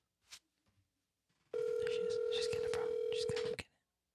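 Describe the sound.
A telephone call rings out over a speakerphone: one loud, steady ringback tone lasting about two seconds, with a few faint soft noises just before it.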